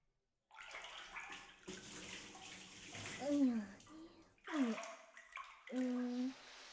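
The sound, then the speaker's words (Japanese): Hot water is poured over a person's head while their hair is washed, giving a quiet, continuous splashing wash with a few short vocal sounds over it. “耳にお湯が入るだろうが。 お湯はそっとかけんか。”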